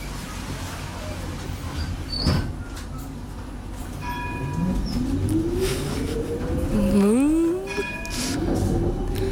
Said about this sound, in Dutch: In de tram, om precies te zijn. Ja. Of nou ja, dat belletje is het vooral.